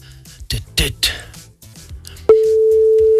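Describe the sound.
A steady, unbroken telephone call tone from a call that goes unanswered cuts in after a stretch of talk and holds evenly, loud and level, until the end.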